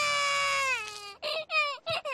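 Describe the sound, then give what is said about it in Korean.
A young child cries: one long wail slides downward in pitch, then breaks into four short, choppy sobbing bursts. “그만 울어요”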